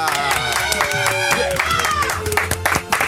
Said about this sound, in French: En Ardèche, applaudissements pour Lionel.